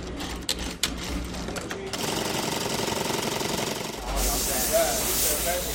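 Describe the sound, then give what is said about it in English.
Sewing machines rattle in a rapid, steady mechanical whir in a Garment District dress workshop, then a loud, continuous hiss of steam takes over as fabric is steamed. “She showed us around where her dresses get stitched, the buttons put on, and the fabric steamed.”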